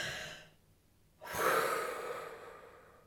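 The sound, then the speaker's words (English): A group of people breathing in together during a relaxation pause: after a short near-silence, one long breathy rush of air swells suddenly, then slowly tapers off. “Let's all breathe together for a second,”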